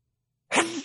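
A single sharp sneeze bursts out of silence, one quick explosive blast that fades into a short breathy tail.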